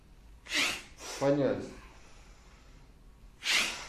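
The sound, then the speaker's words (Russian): Forceful exhalations through both nostrils as a person drops forward, chin to chest, at the bottom of a bend in a kriya breathing exercise. Two sharp, breathy bursts are heard, with a short voiced sound between them. “Мы все падаем, подбородок, груди, и там внизу делаем выдох.”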